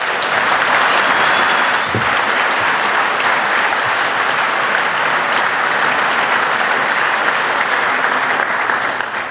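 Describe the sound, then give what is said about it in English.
Warm audience applause for the speakers at the start of a technical talk: dense, steady clapping holds at an even level for about nine seconds and eases slightly at the very end. “So I would like to hear a really warm applause for our speakers for the talk.”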